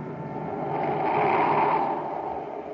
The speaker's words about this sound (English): Listen. What's that, Commander? He's turning the generators, Happy. If he overloads them, he'll ignite the gas and blow up Saturn City.